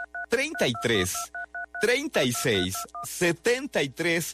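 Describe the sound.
DTMF telephone keypad tones of a number being dialed: several short, clipped beeps in quick bursts, heard between and beneath a person talking.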